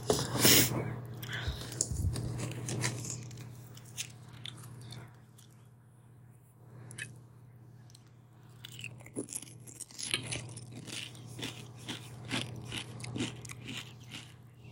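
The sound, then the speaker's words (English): Crunchy biting and chewing while eating with Tostitos hot salsa: loud crunches at the start, a quieter stretch, then many small crisp crunches and mouth sounds. “Hot salsa by Tostitos.”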